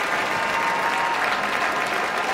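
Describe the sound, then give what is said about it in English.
Sustained applause from a concert audience in the Koussevitzky Music Shed and on the lawn at Tanglewood after the Boston Symphony Orchestra's performance of Beethoven's Sixth Symphony, a dense, unbroken roar of many hands clapping at an even level. “as the audience here in the Kuzovitsky Music Shed and on the lawn show their appreciation for Beethoven's Sixth Symphony”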